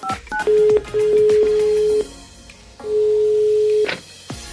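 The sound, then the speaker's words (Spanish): Touch-tone DTMF beeps of a telephone number being dialed: a couple of quick short tones, then a few steady electronic tones, some held for about a second, each clean and bright against a quiet background. “Llamando. A ver. ¿Y por qué no contesta? Ah, si no hemos marcado.”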